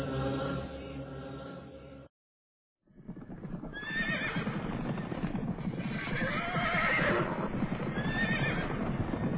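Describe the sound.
A horse neighs a few times over steady, rapid clip-clop of hooves, which breaks off for a short silence and then resumes, fairly loud throughout.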